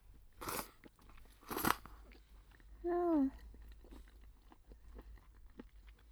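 Someone eating somen noodles makes two sharp slurping bursts, followed by a brief voiced hum. Faint mouth noises fill the otherwise quiet gaps.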